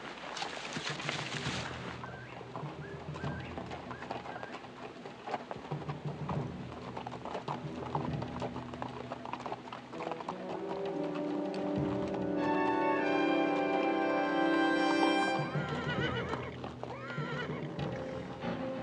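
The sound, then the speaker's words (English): Horses whinny as riders approach a colonel's big house, where other horses stand tied to hitching posts in the sun. Faint neighing mixes with soft hoof clops. “At the colonel's big house, everything is quiet. Several horses are tied to hitching posts in the sun, but no people are about as Dylan and Rose ride up.”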